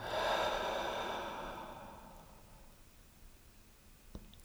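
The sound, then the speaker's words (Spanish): A deep cleansing breath during a guided relaxation exercise, heard as a soft, airy rush of breath that slowly fades over a few seconds and leaves near silence, quiet and without talk. “Y te invito a tomar unas 4 o 5 respiraciones de limpieza, inhalando por la nariz bien profundo. Soltando por la boca.”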